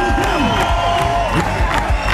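Crowd cheering at an open-air concert in Moosbach, a loud sustained roar of clapping with shouts and whoops rising and falling over it.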